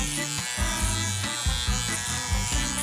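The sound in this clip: An electric shaver buzzes steadily and loudly, its tone shifting and pulsing slightly as it is moved during shaving.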